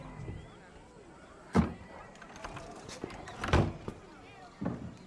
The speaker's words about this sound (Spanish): Ve a Pilar en el reflejo y va hacia una ventana. La vuelve a mirar y la cierra.